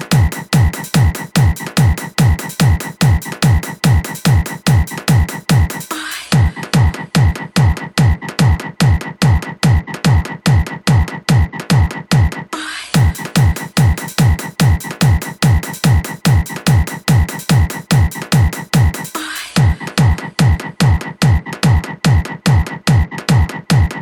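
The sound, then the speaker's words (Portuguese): Frog croaking blasts from a trailer sound rig with Master 8K2 loudspeakers as a loud, steady, fast train of identical throaty pulses, grouped in long runs separated by brief breaks. “Sai sapo, sai sapo.”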